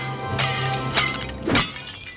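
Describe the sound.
Ceramic dinner plates are smashed with a bat on a front lawn, heard as a few sharp, crashing bursts spaced about half a second apart, with the last one the loudest. No one talks during the impacts.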